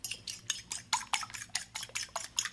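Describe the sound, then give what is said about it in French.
Whisk or spoon clinks against a bowl while crêpe batter with sugar and melted butter is mixed: many quick, evenly spaced scraping taps in a steady rhythm, fairly quiet and with no talk. “Maintenant, tu ajoutes le sucre et le beurre fondu. Mélange bien.”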